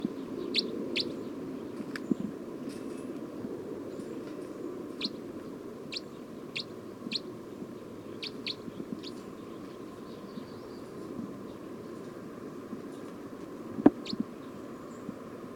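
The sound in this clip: Bird calls ring out as many short, high, thin chirps, scattered irregularly and fairly faint over a steady low background hum.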